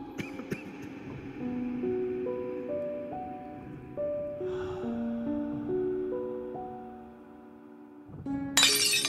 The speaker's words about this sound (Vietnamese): Âm thanh của tiếng cốc rơi xuống nền nhà vỡ tan, ông Trung